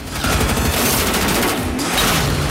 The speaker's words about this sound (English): Gabriel shoots at it as they pass